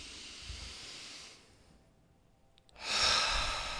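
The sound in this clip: Deep breath drawn in through the nose, a short quiet pause, then a louder, airy exhale out through the mouth. Soft, steady breath noise with no talking.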